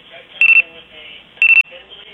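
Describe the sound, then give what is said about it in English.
A clock beeps in two short bursts of rapid, high electronic beeps. Each burst holds a few quick pulses, and a low murmur of background sound runs beneath them. “Are you beeping? No, I'm sorry. That's my clock.”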